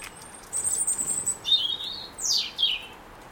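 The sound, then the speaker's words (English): Robin song near a garden bird feeder: a few high, thin, whistled phrases in quick succession, clear over quiet background hiss. “That's a robin singing.”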